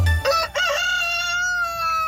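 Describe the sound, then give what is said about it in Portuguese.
A rooster crows once in a long, drawn-out call that is loud, bright and strongly tonal, holding a steady pitch to the end with no voices. “Ó, galinha cantou bonito, hein?”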